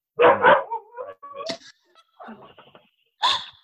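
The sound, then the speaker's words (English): A puppy barks in a few short, high-pitched yips and barks with brief silent gaps between them, loud and alone. “forgive me, that's my puppy.”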